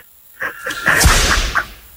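Whip crack sound effect: a sharp, loud snap with a swishing edge, standing out briefly among softer sounds.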